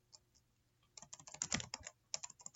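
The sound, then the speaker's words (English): Typing on a computer keyboard: a couple of faint, isolated keystrokes, then a quick, uneven flurry of soft clacking keys. “My goodness, I can't type.”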